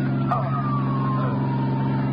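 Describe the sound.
An ambulance siren wails as a high tone that slowly falls in pitch, over a constant, heavy engine rumble.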